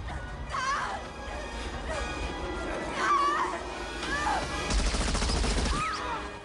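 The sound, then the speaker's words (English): Gunfire crackles as a soldier in white winter fatigues shoots through a hostage into a Russian general during heavy snowfall. Sharp crashing sounds come first, then a rapid, dense burst of shots near the end. “Todd kneels and shoots through the woman into the general, killing them both.”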